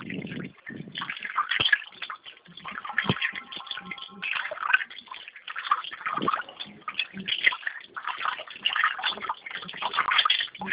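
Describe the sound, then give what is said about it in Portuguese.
Water runs continuously while clothes are being washed, a rushing, splashing noise heard over a narrow telephone line with a few thumps mixed in. “Tá lavando roupa?”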